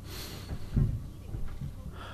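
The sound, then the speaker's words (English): A deep breath is drawn in through the nose and let out through the mouth during a relaxation exercise. The soft, airy rush of breath is faint, with no other sounds. “I want you to breathe in through your nose very slowly and then exhale through your mouth. Take one deep breath.”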